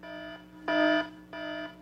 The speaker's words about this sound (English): Rome will stop playing that stupid adultery alarm